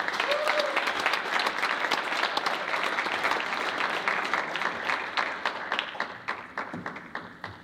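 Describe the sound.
An audience applauds to welcome a speaker to the stage: dense, steady clapping from many hands that holds loud for several seconds, then thins into scattered claps and fades toward the end.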